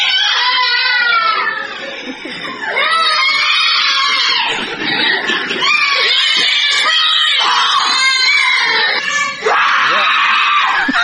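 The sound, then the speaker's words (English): Children at a child care and daycare center in Mississippi scream together in a loud, continuous, high-pitched chorus of overlapping shrieks and yells that barely lets up for the whole stretch. “That is some children from the Little Blessings Child Care and Daycare Center in Mississippi”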